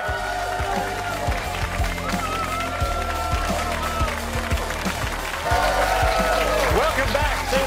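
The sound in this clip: Audience applause as a guest is thanked, a dense, steady wash of many hands clapping that fills the whole clip and grows somewhat louder toward the end.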